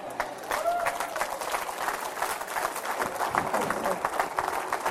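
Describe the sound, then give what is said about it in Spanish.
Applause from a church audience praising God during a bilingual service, quiet, uneven clapping mixed with voices. “Denle un aplauso al Señor, hermano.”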